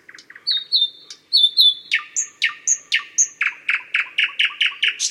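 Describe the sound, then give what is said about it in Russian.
A common nightingale sings clear, loud notes: a few short clicks and high whistles, then a fast, evenly spaced run of many repeated phrases with a steady, pulsing rhythm. “Это все обыкновенный соловей.”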